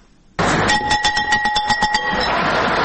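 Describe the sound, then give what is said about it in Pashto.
A school bell rings at a new school year opening ceremony in Afghanistan, bursting in loudly with a rapid run of many bright metallic strokes, then a sustained ringing tone that lingers after the strokes stop. “ولسمشر محمد اشرف غنی هیله وښوده چې د ښوونځي دغه زنګ به د هوساینې، ثبات او خوځښت زنګ وي”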